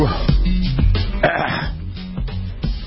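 Someone clears their throat in a few rough, rasping bursts, loud and close, with no other sound around them.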